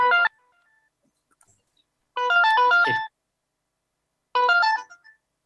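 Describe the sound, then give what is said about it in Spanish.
A mobile phone rings with a melodic electronic ringtone during a talk. There are three bright bursts of tones: a short one, then a longer, busier phrase, then another short one, with silence between them. “Creo que es, perdón, que es mi teléfono.”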